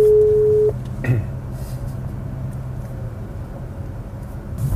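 A single steady telephone ringback tone of an outgoing call sounds for under a second, loud and even in pitch, then gives way to a low, constant background hum with no further rings.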